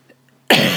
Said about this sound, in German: ich huste immer noch, Entschuldigung dafür. Ja, ich komme da irgendwie nicht von weg, immer noch nicht.